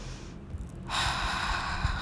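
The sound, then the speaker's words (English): A single long breath drawn in through the nose: a quiet, airy hiss begins after a short pause and holds steadily to the end. “we can just breathe in and say to ourselves while we are breathing in”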